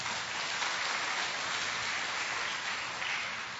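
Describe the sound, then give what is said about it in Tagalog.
Congregation clapping in praise of the Lord during a church service: fairly faint, continuous, dense applause with no talk, holding steady and easing slightly at the end. “Pwede bang palakpakan natin ang Panginoon?”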